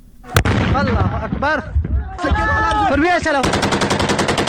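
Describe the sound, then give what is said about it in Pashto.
Gunfire rings out in a border clash between Taliban fighters and Iranian border police in Kang district, Nimroz: a sharp single shot, then shouting voices, then a rapid burst of automatic fire. “احمد تکل د دې ډزو جګړې په اړه رپورت لري چې د ډزو په غږ پیلېږي”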